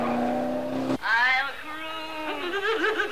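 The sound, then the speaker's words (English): A red sports car driven recklessly along quiet residential roads: a steady engine tone cuts off abruptly, then loud wavering squeals like skidding tyres follow, bending and sliding in pitch. “Now it's morning, and Frank's recklessly driving his red sports car along quiet residential roads.”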